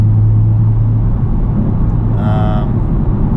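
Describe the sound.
Steady low rumble of a car driving on a road trip near Wichita Falls. A constant engine and road drone runs throughout, with a faint higher whine rising briefly partway through.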